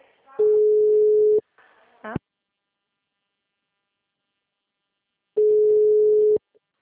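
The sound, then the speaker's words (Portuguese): Telephone tone after a dropped call: two steady, mid-pitched beeps of about a second each, separated by a long silence, with a brief noisy burst shortly after the first. “a ligação caiu”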